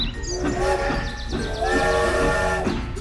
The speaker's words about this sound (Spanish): Había una vez, en el planeta del bien comer, un tren muy famoso llamado Nutritren, que llevaba a los habitantes de estación en estación y anunciaba su llegada.